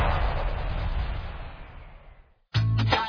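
Firecrackers exploding for a Diwali advertisement: a loud, crackling blast roars and slowly fades almost to silence, then another sharp, loud burst abruptly begins.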